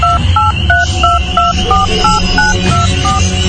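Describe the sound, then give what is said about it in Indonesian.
Touch-tone keypad beeps as a telephone number is dialed: a rapid string of short paired tones at a steady pace, clear above a low rumbling background hum. “Aku pun coba menelpon orang yang memesan orderan makananku itu.”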